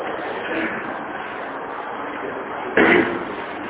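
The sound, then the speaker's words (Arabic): A door closes at a preachers' training institute, landing as a single dull thud near the end over a steady wash of background noise. “لا ممكن نقفل الباب لو سمحت.”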